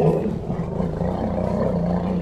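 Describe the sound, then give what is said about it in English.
Two savanna elephants greet each other in Zimbabwe with deep, continuous harmonic rumbles that overlap at a steady, fairly loud level throughout. “That is a recording of two savanna elephants greeting each other in Zimbabwe.”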